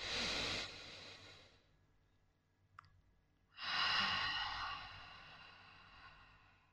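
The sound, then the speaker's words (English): A slow exhale through the mouth during a guided breathing meditation: a soft, breathy rush that tapers into quiet, then after a pause a second long, fuller breath swells and gradually fades. “Exhale through your mouth.”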